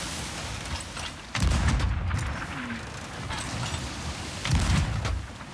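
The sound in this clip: An enemy ship fires on a boat in a naval battle video game. Two deep, booming blasts with rumbling tails are a few seconds apart over a steady wash of noise, and no one talks.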